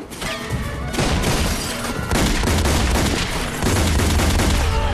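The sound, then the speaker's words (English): Rapid gunfire in a close-quarters shootout among overturned furniture: a dense barrage of sharp, overlapping shots that stays loud from start to finish, with no voices. “He grabs the gun and fires back, sliding across the floor.”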